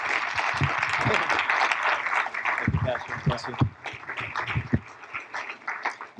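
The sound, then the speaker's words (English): Applause from a church audience welcoming a visiting preacher and his wife: dense, steady clapping that gradually thins and softens, with scattered louder claps and voices mixed in toward the end. “Somebody put your hands together for Jesus.”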